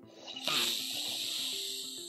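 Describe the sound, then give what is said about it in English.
A deep breath drawn in through the nose during a guided breathing exercise, a soft airy hiss that begins just after the start and holds steadily to the end. “Let's breathe in through the nose, close the eyes.”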